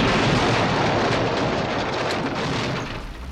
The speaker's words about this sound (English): Let's see how alive you are with a grenade up your service.